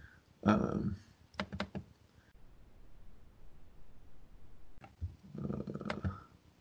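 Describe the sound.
Clicking and typing on a computer to open a link, heard as a quick cluster of sharp key and mouse clicks between stretches of muffled vocal sound and quiet background hiss.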